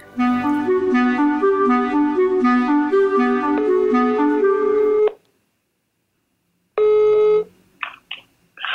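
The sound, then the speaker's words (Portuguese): Electronic telephone dialing tones sound as a call is placed: about five seconds of loud stepped beeps shifting in pitch, then after a pause a single shorter tone. “eu vou tentar ligar”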